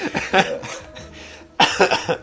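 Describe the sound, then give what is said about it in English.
Coughing in a studio, a few rough, throaty bursts: one short cough early, then a longer, louder fit of coughs after a brief quiet gap. “Next 3 minutes, we're just going to cough.”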